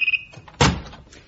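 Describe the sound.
An office door is closed with a single short, dull thud that fades quickly, heard on its own.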